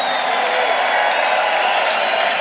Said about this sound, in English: So put your hands in the air and make some noise for yourselves right now.